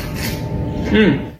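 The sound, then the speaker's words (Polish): Scraping and rubbing as cucumber salad is stirred in a dish with sesame oil, rice vinegar, garlic, chili and sesame seeds, a steady rasping texture throughout with a slightly louder surge near the end. “Gdy już mamy pełne naczynie, dodajemy trochę oleju sezamowego, trochę ryżowego octu, spracowany czosnek i trochę chili. Ja dodaję jeszcze ziarna sezamu. Teraz musimy dobrze wszystko wymieszać.”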